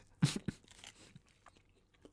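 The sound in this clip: Biting and chewing a fresh English muffin spread with apple butter: two sharp, crisp crunches in quick succession, followed by softer, fainter chewing noises.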